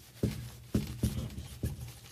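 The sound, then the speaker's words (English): Writing on a board: four short scraping strokes, each starting sharply and fading quickly, spaced unevenly over about two seconds, with no voices. “Let's see if I can just write mystery up here.”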